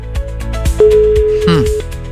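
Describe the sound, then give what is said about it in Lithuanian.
A steady, single-pitch telephone dial tone while a number is being dialed, holding for about a second amid louder music and a voice. “gerai, aš greitai renku telefono numerį”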